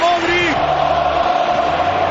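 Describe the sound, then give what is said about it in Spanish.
A stadium crowd at the Bernabéu gives Luka Modric an ovation, a steady, broad roar under a man's voice talking over it. “Mira la ovación del Bernabéu a Luka”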